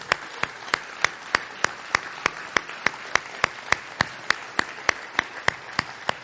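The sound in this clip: Audience applause for mothers standing in a church audience comes as steady rhythmic clapping, many evenly spaced sharp claps at a brisk, regular beat with no voices over it.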